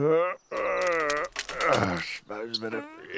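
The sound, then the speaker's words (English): A man's deep groans as he gets up: a few drawn-out, throaty voiced moans and grunts in a row, fairly loud and low-pitched, with short breaks between them. “Mr. Man said as he got up with a deep groan and a crack of his knees.”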